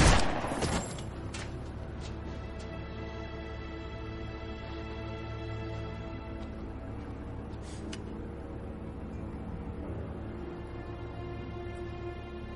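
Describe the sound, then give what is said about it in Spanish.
A gunshot fired at a zombie in a post-apocalyptic pandemic thriller: one sharp, loud shot at the start that decays quickly into a quieter, sustained tonal backdrop. “Sale fuera y se acerca al zombi. Le ha disparado y este cae”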